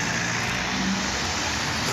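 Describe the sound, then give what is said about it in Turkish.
Road traffic from holiday cars queuing in a long line at a town entrance gives a dense, steady roar of engines and tyres that holds at an even level throughout, with no voices. “tatil için yollara düşenler Muğla girişinde trafiğe neden oldu. Menteşe ilçesinde başlayan araç kuyruğu 22 kilometreye ulaştı.”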